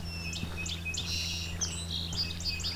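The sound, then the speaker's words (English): Ovenbird song drifts from woods beside a hydro corridor: many quick, high, chirped notes repeated in bursts, fairly faint over a low steady hum. “So this hydro corridor has woods on both sides. That's the oven birds.”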